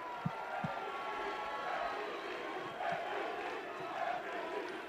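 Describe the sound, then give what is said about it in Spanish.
An arena crowd chants for basketball player Luka Doncic, urging him to stay. Many voices blend into a dense, sustained roar with rhythmic swells and a few low thumps. “Enciende al público que empieza a pedirle que se quede.”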